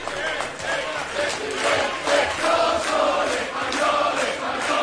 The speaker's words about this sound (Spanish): Este es el sonido y la reacción que tuvieron los asistentes al mitin.